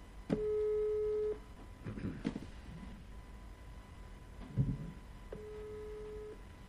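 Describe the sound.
A faint, low telephone ringback tone plays as a call is placed: two steady beeps about a second long each, separated by a long gap filled with quiet, muffled background sounds.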